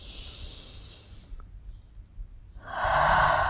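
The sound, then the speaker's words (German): During a guided relaxation exercise, a deep breath is drawn in while the shoulders are raised. A soft, airy breath is followed by a louder, fuller rush of air at the end, with no talk. “Und noch einmal einatmen und die Schultern dabei hochziehen”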